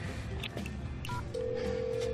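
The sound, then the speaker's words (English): A telephone being dialed to make a call: a few short electronic beeps, then a long, steady tone that holds to the end over a constant background hum. “I'm calling Allison.”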